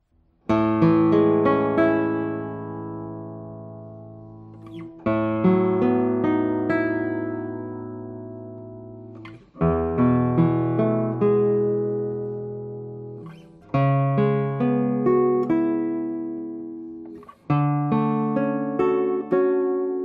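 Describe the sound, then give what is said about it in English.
A lightweight papier-mâché guitar with a spruce top and paper back and sides is played in five strummed chords. Each chord rings brightly and decays slowly before the next, with no talking. “So I expect this guitar to have a also fast response, and let's see.”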